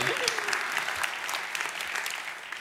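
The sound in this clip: Applause from an audience welcoming a speaker's daughter to the stage at a weekend gathering about Jesus: steady, dense clapping that holds at an even loudness throughout without a break.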